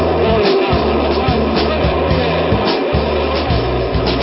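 The Mercury-Atlas MA-6 rocket launch carrying John Glenn: a dense, loud, continuous roar of rocket engines with a low rumbling pulse that stays steady throughout.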